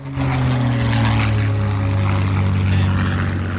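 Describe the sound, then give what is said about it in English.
A Mustang propeller fighter plane flying past at an air base: a loud, steady droning engine with a deep harmonic hum that rises quickly at the start and holds strong throughout. “watches a Mustang fighter plane go by.”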